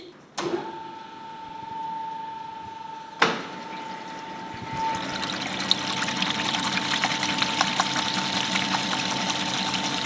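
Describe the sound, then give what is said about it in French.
A large commercial stand mixer, like an oversized kitchen mixer, starting up to whip egg whites: two sharp clicks over a steady motor hum, then a loud, continuous rattling whir of the whisk. “C'est comme une grosse KitchenAid en fait, mais très grande. Okay. Voyons voir ce que ça donne, j'imagine ça va faire du bruit, c'est parti.”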